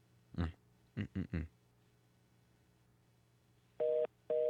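Telephone tones sound while dialing a call to Puerto Rico on a Verizon line: four short bursts, then two longer steady tones after a quiet gap.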